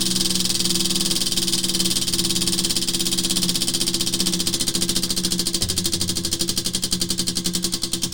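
A prize wheel spinning clockwise gives a loud, continuous rapid clicking rattle. The clicks gradually slow and spread out toward the end, with no talk over it.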